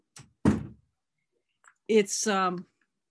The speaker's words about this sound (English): I'm just going to close the door because my dog came in here.